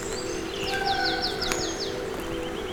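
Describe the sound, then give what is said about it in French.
Birdsong among a rocky boulder field outdoors: a quick run of several bright chirping notes in a row, with softer calls and a steady faint tonal hum beneath. “je suis plutôt agréablement surpris par les nombreux chants d'oiseaux.”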